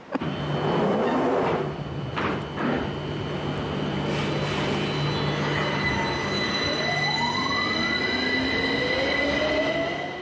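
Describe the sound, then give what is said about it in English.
A London Underground Piccadilly line tube train heading toward Covent Garden: loud continuous rumble and rattle of carriages with a steady hum, then high wheel squeals that rise in pitch toward the end. “It's an underground train on the Piccadilly on its way to Covent Garden.”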